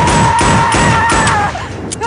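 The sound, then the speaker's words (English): Gunshots from a played video clip of an angry shooting scene: a few heavy, thudding shots ring out loudly over a sustained tone. “Here is her doing something. Angry shooting.”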